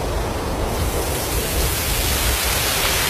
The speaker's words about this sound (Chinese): 这是风声